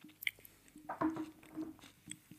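Chewing on a spoonful of crunchy chocolate hazelnut spread, heard as a few soft, faint, wet smacks and squishes with quiet pauses between them.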